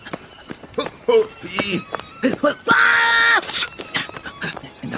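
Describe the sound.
A person screams during a tabletop role-playing game. One loud, drawn-out, high cry stands out amid busy, excited voices and thumps.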